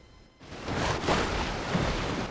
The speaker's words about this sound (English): Now it's almost dark, and the sailboat is bobbing violently on the choppy sea.